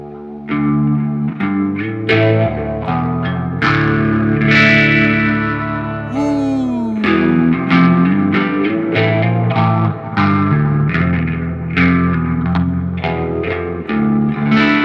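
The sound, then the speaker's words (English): Electric guitar in drop D on the neck pickup, run through reverb, delay, phaser and a Tumnus pedal. Ringing chords and picked notes trail into echoing tails, and one note bends downward partway through. “I got my pedal board. I have reverb and delay, a little bit of phaser, and then we got the Tumnus running too, so we have a wonderful, wonderful sound.”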